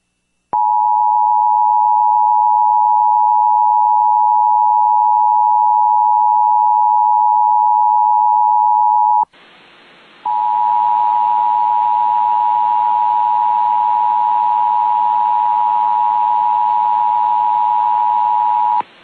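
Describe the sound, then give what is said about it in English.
Emergency alert system monthly test tone from a St. Louis-area station: a loud, steady electronic pitch held unbroken for about nine seconds, then after a short break it resumes over a rough hiss and stops abruptly. “is the required monthly test of the emergency alert system.”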